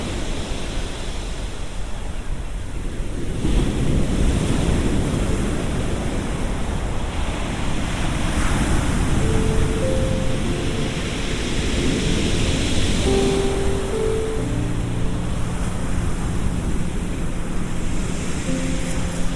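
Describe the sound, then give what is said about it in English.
Receding sea at Brighton Beach pulls pebbles back along the shoreline, a steady rushing hiss of surf and rolling stones that swells after the first few seconds and stays loud and continuous throughout. “As the sea pulls back from the shoreline, it brings with it some pebbles, and you get that sound.”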